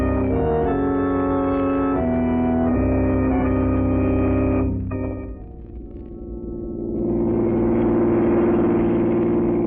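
A radio-drama car effect follows a sustained, organ-like chord that fades out, and a steady engine drone with broad rushing noise then swells up and runs on loudly to the end.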